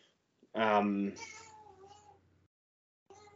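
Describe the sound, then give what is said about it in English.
A cat gives one loud, drawn-out, wailing meow that trails off into a quieter, lower tail. After a short silence, another cry starts at the very end. “that was my cat, bro. This sounded like a kid crying.”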